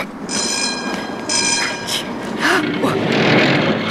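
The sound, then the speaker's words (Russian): A tram pulls up to a stop with a low rolling rumble and repeated high, ringing wheel squeals that swell and fade in several bursts. “К остановке подходит трамвай.”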